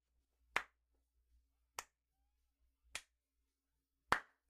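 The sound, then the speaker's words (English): Slow clapping: four single sharp claps, evenly spaced about a second apart, each one crisp and isolated against near silence. “just slow clapping.”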